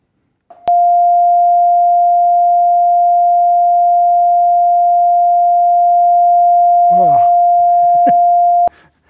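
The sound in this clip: A steady synthesized sine tone representing the first formant, F1, holds one unchanging mid pitch at even loudness for about eight seconds with no rise or fall, while a voice briefly talks over it near the end.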